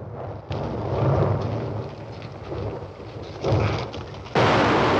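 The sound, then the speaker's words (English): Explosions in a film scene as a rider on horseback is caught among the blasts, with a few sudden deep booms that break in abruptly and leave a rumbling roar between them. “Explosions erupt around him as he tries to catch up with his crew. One causes him to fall off his horse and he tumbles down a slope.”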